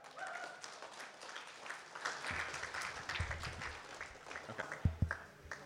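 Audience applause at an open mic comedy show: a dense, steady wash of clapping, fairly faint, with a few sharper claps standing out toward the end.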